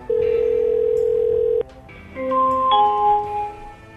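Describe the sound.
Telephone tone on an outgoing call to a business, a steady electronic tone holding for about a second and a half, then a brief gap and a run of stepped electronic tones.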